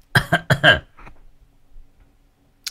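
A person with a hoarse, irritated throat lets out a rapid burst of four harsh coughs. Faint throat rumbling follows, then a brief sharp noise at the very end.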